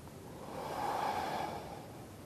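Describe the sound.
A single soft exhale during a qigong movement as the shoulders roll forward, a faint breathy hiss that swells and fades over about a second, heard alone.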